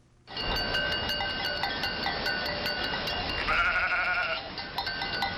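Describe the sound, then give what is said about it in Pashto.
A flock of sheep and goats bleats steadily as migrating nomads drive it along with laden camels. Bell-like clinks sound throughout, and one wavering bleat stands out midway. “اوښانې په لوښو بار د میږو وزو رمه یې تر مخ کړي”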